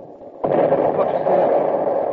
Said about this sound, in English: What's that? The ship's gun.